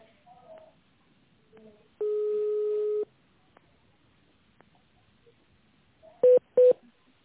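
Two short touch-tone keypad beeps as a caller selects an option in an automated phone menu, coming near the end after a longer steady one-second tone. The line is otherwise quiet.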